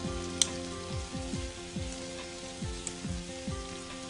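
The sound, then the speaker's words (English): Butter sizzling in a frying pan with shrimp as a sauce forms: a faint, steady crackling hiss with small pops that continues throughout without pause. “We'll add a touch more butter to this just to form our sauce.”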